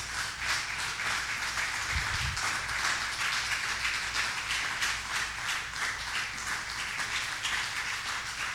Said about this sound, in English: Would you mind helping me putting your hands together to welcome Pastor Ellen Moody to come and share Jesus in the house today in the name of Jesus.